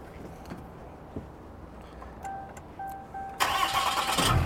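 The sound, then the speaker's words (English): A Cummins truck engine starts at a dealer auction. It cranks with faint whining tones, then catches with a sudden loud roar and settles into a rough, steady run, with no talk over it. “It's a Cummins. How can we not go for a ride? Hopefully it starts. Hold on a second. All right, see if it starts.”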